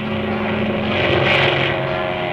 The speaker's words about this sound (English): pull back on that stick to start the takeoff. You've got to get her up on the step or she won't move. I'll let you in on a secret. Hitting the water is bad for the prop.